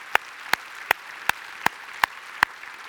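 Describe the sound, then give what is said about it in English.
A church audience clapping, seven sharp, crisp claps at a steady, even pace, then fainter noise. “Están aplaudiendo porque le estoy dando la bienvenida a la congregación hispana.”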